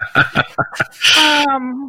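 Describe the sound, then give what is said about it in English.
A person sneezes: a few short, sharp catches of breath, then a loud burst that trails into a brief voiced tone. “Excuse me, I had a sneeze.”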